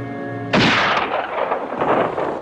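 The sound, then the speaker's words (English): A single loud gunshot cracks out sharply and then fades into a long, rumbling, booming decay, after a steady tonal drone. “Where'd that come from? Where'd that shot come from?”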